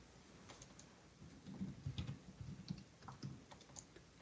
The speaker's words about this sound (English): I forgot how to type.